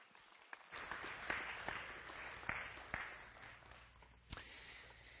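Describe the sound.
Applause from an audience at Northview welcoming a guest speaker to the front: a dense, even wash of clapping with a few sharper individual claps standing out, fairly quiet and steady throughout.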